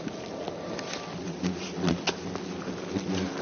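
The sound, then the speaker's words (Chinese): Hornets buzz steadily and strike a protective suit while their nest is dug out, a dense insect drone with scattered soft ticks and bumps throughout. “现在虎头蜂撞击我的这个衣服的声音特别响”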